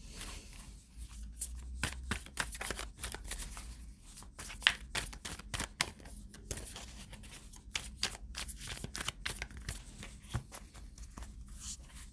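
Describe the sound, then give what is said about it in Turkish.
Tarot cards being shuffled and drawn: many faint, quick papery flicks and snaps in an irregular run throughout, with no talk. “Size de buraya bir kart çekeyim.”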